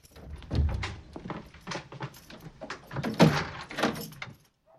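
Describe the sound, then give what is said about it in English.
A kitchen door is closed quickly, giving a few short wooden thuds and knocks amid other busy clatter, with no voices. “He quickly closes the kitchen door.”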